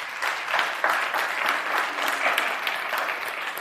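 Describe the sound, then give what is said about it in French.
A church audience applauding: dense, steady clapping from many hands that holds at an even, fairly loud level throughout without pause. “On va acclamer le nom de Jésus pour cette grâce.”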